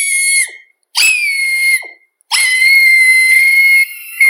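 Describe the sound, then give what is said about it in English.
A person squeals at something adorable in three piercing, shrill bursts of steady high pitch. Short silences separate the squeals, and the last one is the longest. “It's somebody squealing when they see something adorable.”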